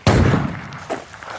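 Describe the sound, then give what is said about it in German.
A rifle shot at a shooting range, fired from a prone position on a mat, gives one loud, sharp blast with a long rumbling decay, followed by a softer thump. “Nachher legt man sich auf eine Matte, bringt das Gewehr in Position und zielt. Trotz Gehörschutz bläst es einem fast durch weg.”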